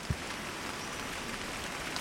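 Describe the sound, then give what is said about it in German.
Rain falls in thick drops on ancient giant trees in a Kenyan mountain forest above 3000 metres. It makes a dense, steady patter with a couple of slightly sharper drop hits. “Regen fällt in dicken Tropfen auf uralte Baumriesen.”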